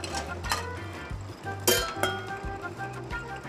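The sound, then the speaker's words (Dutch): Stirring in a big pot of melted chocolate: a spoon scrapes and swishes through the thick mixture, with a few light clinks against the pot over a steady low rumble. “Mabels vader en moeder in een grote pot gesmolten chocola te roeren”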